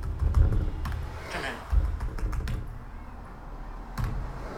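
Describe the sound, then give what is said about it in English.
Grade 2 Braille typed on a Braille display paired with an iOS phone: many irregular, soft clicking key taps, some slightly louder, over a constant background hiss. “So I'll try and just type in grade 2 Braille and hope it works.”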